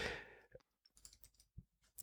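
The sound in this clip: Faint, irregular clicks of keys on a computer keyboard as a chapter marker is typed, sparse and uneven in rhythm, with no talk over them.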